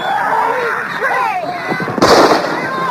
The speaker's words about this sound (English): My God, they shot him!